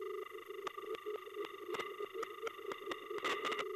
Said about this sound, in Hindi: phone आ रही है शायद कनेक्ट नहीं हो रही है, हेलो लाइन सही मिले को नहीं